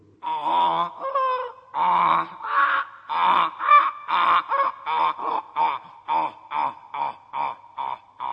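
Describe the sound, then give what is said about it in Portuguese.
Donkey braying: a long series of rhythmic, harsh hee-haw pulses, uneven at first, then settling into many short, regular bursts that come closer together toward the end. “Isto é o zurrar de um burrinho.”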